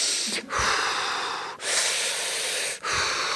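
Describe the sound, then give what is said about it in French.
Heavy, deep breathing from a person practicing a calm breathing exercise for mountain trekking. Several long, loud, airy breaths follow one another, separated by brief pauses, with no talking. “Même le soir, quand vous êtes dans votre tente, vous apprenez à bien respirer comme ça”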